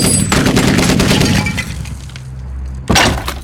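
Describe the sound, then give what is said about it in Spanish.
Gunshot-like blasts: a loud opening burst with crashing, shattering noise, a quieter low rumble, then a second sharp blast near the end, with no voices. “Haré otro tiro porque hablaste. Ya disparaste. Yo dispararé ahora.”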